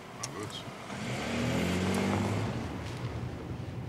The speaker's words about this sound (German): Chef, geben Sie Gas.